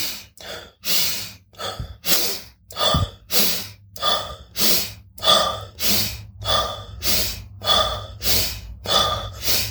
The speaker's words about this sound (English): So it's fast breathing. You breathe in more and longer than you breathe out. This is the core concept of it. So it sounds something like this.